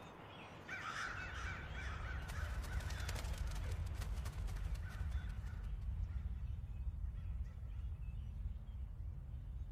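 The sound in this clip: Crows caw as birds fly overhead in the open sky, a few harsh calls early on, set over a steady low rumble.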